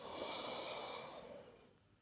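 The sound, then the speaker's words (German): A slow breath drawn in, a soft, quiet, airy rush that holds steady and then tapers off over about two seconds. “Alles, was du tun musst, ist einatmen”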